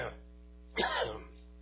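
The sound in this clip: A single short, rasping throat clearing, prompted by a tickle in the throat, rises out of near silence at moderate loudness and fades after about half a second.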